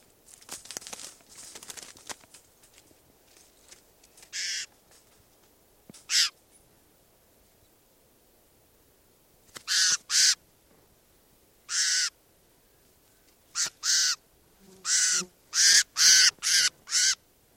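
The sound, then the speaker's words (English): Harsh, raspy bird calls from a bird being handled. Many short bursts come scattered at first, then cluster quickly together toward the end, with faint crinkling handling noise early on. “I'm going to try and handle bird 745 here.”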